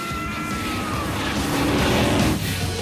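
A monster truck's engine roars loudly and without pause at a race with jumps over derelict cars, revving steadily as the truck spins round in the dust.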